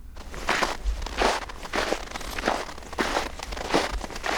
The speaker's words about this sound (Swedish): det är ju förstås ljudet när man går i snö, när det är riktigt kallt ute.